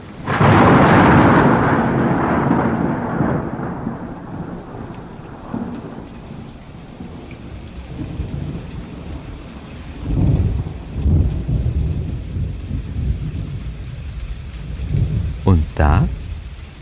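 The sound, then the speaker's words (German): Thunder and heavy rain as the rainy season breaks: a loud rolling rumble over dense rain that slowly fades, further low rumbles after a pause, then a sharp, loud crack near the end. “Im dramaturgisch genau richtigen Moment begann die Regenzeit.”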